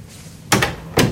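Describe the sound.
A door being shut in a bedroom chamber: two solid, dull thuds about half a second apart over a faint steady hiss.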